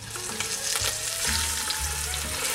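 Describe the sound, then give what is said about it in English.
Pork shoulder searing in a hot pan gives a loud, steady sizzle with a frying hiss and crackle throughout, and no talk. “I'm gonna add our pork shoulder to this pan and get a nice sear on it. So here we go, we're gonna drop it in.”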